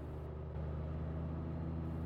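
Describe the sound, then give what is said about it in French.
The engine of an ultralight aircraft flying across the sky gives a faint, steady droning hum with a low buzzing tone, holding constant throughout with no change in pitch. “à peine troublé par le bruit d'un moteur du ULM qui traverse le ciel.”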